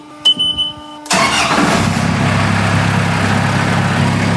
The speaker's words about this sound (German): So, der Notantrieb ist gestartet. Jetzt werden wir ihn ein bisschen warm laufen lassen und dann geben wir Gas und werden dann fahren.